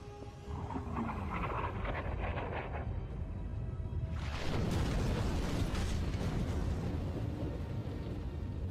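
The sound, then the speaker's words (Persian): Two launched torpedoes explode on hitting their target: a low, continuous rumbling roar swells sharply about halfway through and stays loud to the end. “اژدرها به هدف برخوردن”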